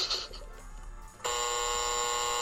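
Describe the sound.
A buzzer marks a lie in a lie detector game: after a stretch of quieter, mixed noise, one loud, harsh, steady buzz starts abruptly and holds unbroken to the end.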